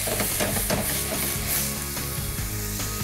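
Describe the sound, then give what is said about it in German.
A hot pan sizzles loudly as white wine is added to deglaze it. The hiss is steady and crackling, with faint clicks of stirring mixed in, and no one speaks. “So, und jetzt habe ich hier Weißwein. So, und jetzt lösche ich immer so ein bisschen ab hier.”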